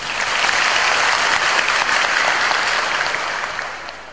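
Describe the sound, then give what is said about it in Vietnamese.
Audience applause during a Buddhist dharma talk, a loud, dense, sustained wash of clapping that eases slightly near the end. “các bà vỗ tay bởi vì các ông đòi đi tu phải không?”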